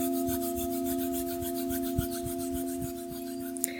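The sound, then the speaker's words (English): Palms rubbing together in soft, repeated dry strokes over a steady ringing tone from crystal bowls during a guided meditation. “Feeling the warmth of your breath on your hands, rubbing your palms together.”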